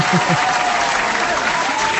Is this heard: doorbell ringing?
no